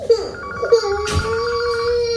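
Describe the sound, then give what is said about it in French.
A telephone rings at home with a steady, sustained electronic tone and repeating higher chirps. A brief noisy burst cuts in midway, then the ring continues at an even level. “réponds au téléphone, s'il te plaît.”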